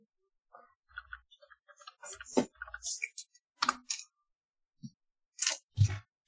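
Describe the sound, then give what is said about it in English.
Two dice are rolled during a tabletop role-playing game. Light, irregular clicks and clatters scatter across the moment, a few sharper knocks standing out, all faint and uneven. “could I add like any of my conspiracy dots to this? Uh, roll me an extra two dice.”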